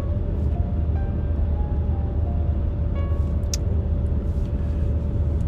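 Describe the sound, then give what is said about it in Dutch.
Car driving along a residential street past a house, a steady low road and engine rumble that continues without break, even in loudness, with no voices. “En dan rij ik zo weer langs het huis van A.L. Snijders.”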